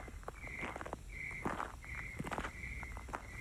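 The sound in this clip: Faint footsteps on hill and valley terrain, an irregular run of crunching steps. A repeating high chirp, like an insect or bird, pulses in the background.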